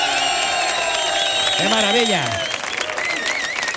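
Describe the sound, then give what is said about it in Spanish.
A large crowd of spectators applauds and cheers in a steady, dense wash of clapping and shouts, while a single voice speaks excitedly over the noise. “masificación de público que tenemos hoy, que suena así de fuerte, mira cómo suena el público de ahí,”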